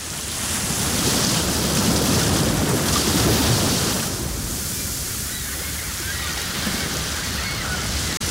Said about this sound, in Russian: Вы слушаете приятный, ласковый, расслабляющий плеск волн морей Арафурского, Альборан, Банда, Висаян, Камотес,